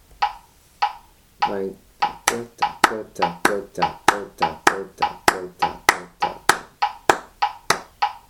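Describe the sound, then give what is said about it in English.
Hand claps land on the offbeats between a steady beat of about 100 per minute, a sharp, even series of roughly twenty bright claps with no talking. “we're going to clap on the ends. It's going to sound like this.”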